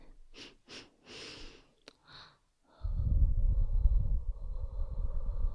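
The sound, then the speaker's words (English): Breath blown into an ear-shaped microphone: a few soft, short breathy puffs, then a loud, sustained, rumbling blow that buffets the mic for about three seconds. “I mean, I'm blowing in your ear, so it's not really supposed to be sniffed”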